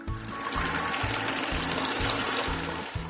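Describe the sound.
Water running steadily from a bathroom tap left not fully closed, a continuous even hiss and splash with no voices.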